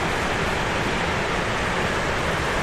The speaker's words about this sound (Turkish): Yağışlı geçen kış ve ilkbahar aylarından sonra baraj kapakları açıldı. %100 dolan barajlardaki fazla su tahliye edilmeye başlandı.